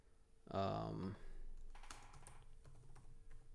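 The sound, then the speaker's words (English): Typing on a computer keyboard, a run of quick, light key clicks that follows a short burst of someone speaking, continuing steadily and softly to the end. “I'll just type in Dr. Davis and see what comes up”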